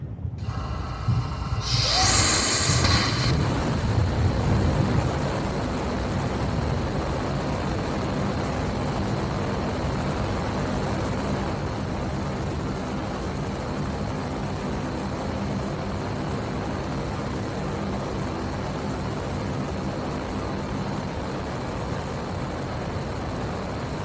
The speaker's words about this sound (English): All right, so let's go into some of the development testing. This is a Raptor firing.